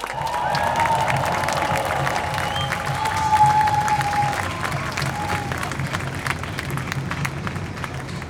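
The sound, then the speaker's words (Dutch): Sustained applause from a crowd at a street protest over a benefits scandal, dense steady clapping that holds at an even, loud level throughout and swells slightly midway. “Mag ik een applaus voor gedupeerde van het toeslagenschandaal, Janet Ramessar.”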